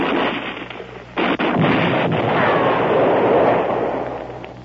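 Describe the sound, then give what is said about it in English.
A grenade explosion in a wartime scene: a sharp blast bursts out early, then a loud, broad roaring rumble sustains and slowly fades toward the end. “grenade, Lieutenant. Grenade.”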